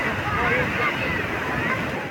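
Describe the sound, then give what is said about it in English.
Waves wash onto the Carrara beachfront in the southern Gaza Strip as a steady, broad rushing surf with no breaks. “Here at the Carrara beachfront in southern Gaza Strip, hundreds of children from the age of 6 to the age of 16 are starting to learn how to swim.”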